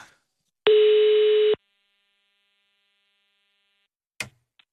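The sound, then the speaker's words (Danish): A single telephone ringing tone, about a second long and steady with a buzzy edge, while calling a school, followed by silence and a couple of sharp clicks. “Og så ringede jeg så til det der skole og forældre.”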